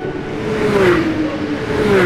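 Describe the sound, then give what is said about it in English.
A NASCAR race car engine drones loudly at high speed, a continuous roar with a steady whining tone that dips slightly in pitch. “People who drive in NASCAR races drive special cars that are made to go super fast, over 200 miles an hour.”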